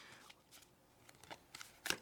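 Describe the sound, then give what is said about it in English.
Playing cards give soft rustles and flicks as one is picked from a standard deck. Several faint, brief snaps spread across the moment, with a sharper flick near the end. “What are the chances that I, at random, pick out of this deck the Queen of Hearts? Standard deck is 52 cards, so 1 out of 52. All right, now let's do it this way.”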